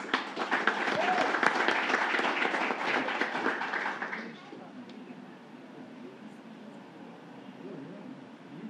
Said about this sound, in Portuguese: Então, por isso, eu queria uma salva de palmas para elas.